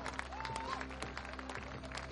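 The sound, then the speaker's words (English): A faint ovation from the crowd at TD Ballpark during a Dunedin Blue Jays baseball game as a pitcher leaves, with scattered, distinct hand claps over a low, steady hum. “Manoah gets a nice ovation from the crowd here at TD Ballpark”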